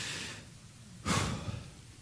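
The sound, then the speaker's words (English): A group draws a deep, collective breath during prayer at a religious service, a soft, breathy rush that swells briefly for about half a second and then fades. “take a deep breath”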